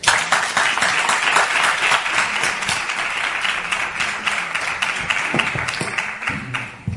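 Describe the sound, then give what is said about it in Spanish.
Studio audience applause after a call for a loud ovation: a thick, steady stream of many hands clapping that holds its loudness and eases off slightly at the very end. “Vamos a aplaudirlo fuerte. Yo aprovecho el aplauso para sentarme y escaquearme.”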